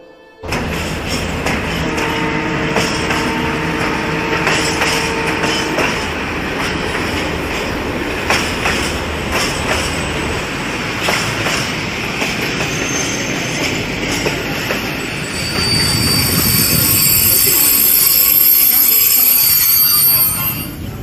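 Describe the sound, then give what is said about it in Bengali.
An early-morning passenger train bound for Medinipur rolls along the rails with a loud, continuous rumble and rhythmic clickety-clack of wheels, and a brief higher wheel squeal rises near the end. “Medinipur গ্রামে ভোরের ট্রেনে চেপে বসলাম train ফাঁকা হওয়াতে সারা রাতের খাটনি নতুন জায়গার চিন্তা একটু হলেও কমাতে পারল”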